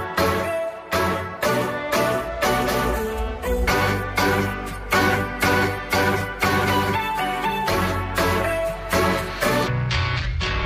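A Latin pop song plays, loud throughout, with a steady beat, heavy bass pulses and a sung melody over layered instruments.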